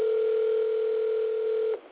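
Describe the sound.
A steady telephone tone on a mobile phone call that fails to connect. It holds one continuous pitch for almost two seconds, then cuts off abruptly, leaving only faint hiss and no talk.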